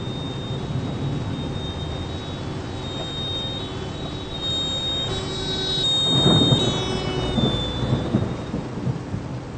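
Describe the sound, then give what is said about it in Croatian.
A thunderstorm with heavy rain: a dense, constant hiss of rainfall runs throughout, while a deep rumble of thunder swells louder partway through and then eases off. “Regen, Gewitter. Das merke ich auch so.”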